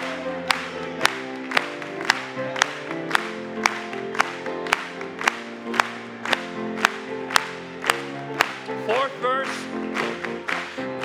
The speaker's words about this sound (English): Let's clap it to Him.